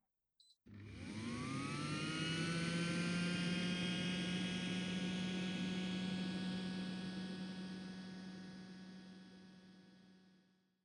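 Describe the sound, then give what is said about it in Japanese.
A seed-sowing robot runs with a whirring, motorised hum. A brief click comes first, then the tone spins up and rises in pitch, holds loud and steady, and slowly fades toward the end. “それじゃあ種をまきましょうか。と言っても種まきはロボットにお任せなんですけどね。ではいってらっしゃい。”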